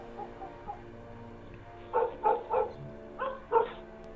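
A dog out in the yard barks loudly in a quick burst of sharp, clipped barks, coming in two close clusters after a few faint earlier sounds, with no talk over them.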